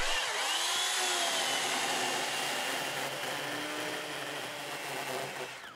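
Motorized sawing into a beech log to gather wood chips for a moisture sample gives a loud, continuous whining buzz that holds steady throughout and eases slightly at the end.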